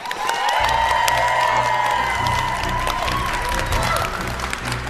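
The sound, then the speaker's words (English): An audience at a live event applauds and cheers to welcome a guest, with dense, loud clapping and a few whoops held steady before easing slightly at the end. “Everyone, please put your hands together for the story lead for Wilds of Eldraine, Roy Graham.”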